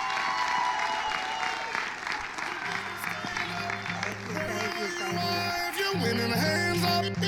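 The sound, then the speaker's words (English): Crowd applause welcoming a gospel singer to the stage at a Park Lawn event: loud, sustained clapping that continues for the whole stretch, with music playing underneath. “Let's put our hands together. Let's welcome Rhonda Davis as she comes to the stage.”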